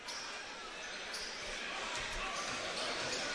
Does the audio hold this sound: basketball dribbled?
yes